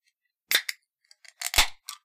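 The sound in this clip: An elderflower soda bottle is cracked open: a couple of sharp clicks, then a louder burst of crisp snaps and a brief fizzy rush, ending with one more small click against near silence.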